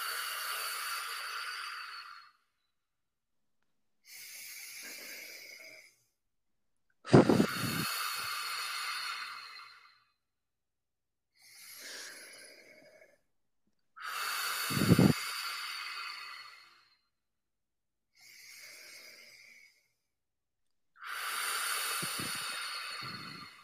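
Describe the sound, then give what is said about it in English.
Slow, deep breathwork, alternating inhales and exhales. Seven long, airy, hissing breaths are separated by short silences and stay fairly soft throughout. No voices are heard. “We'll breathe in and exhale.”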